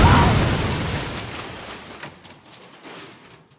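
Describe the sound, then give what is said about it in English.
A flower, a Rhodesian Ravager rose, exploding when held too tightly: a loud, rumbling blast that starts at full strength and slowly dies away over a few seconds with a crackling tail. “Rhodesian Ravager roses have a bad habit of exploding if they're held too tightly.”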